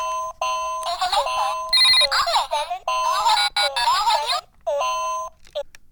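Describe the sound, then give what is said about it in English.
A low battery warning alarm sounds as a loud cacophony of electronic tones: steady beeps mixed with warbling, chirping pitches. It runs almost continuously with only brief gaps, ending in a few short tones. “Regular listeners to this show will recognize that cacophony as the sound of bingo battery. That's right, we have run out of battery once again here on the Dubious Goals Committee”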